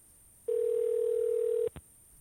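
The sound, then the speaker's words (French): A telephone ringing tone on an outgoing call: one steady, unbroken electronic tone lasting just over a second, then a brief click, with no voices. “Oh, mon Dieu, sonnerie de merde.”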